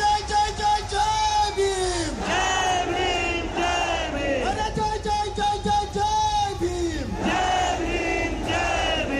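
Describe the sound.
A protest crowd in Mumbai, holding tricolour flags, chants Jai Bhim slogans: loud massed voices shouting in repeated rhythmic phrases that rise and break off about every two seconds.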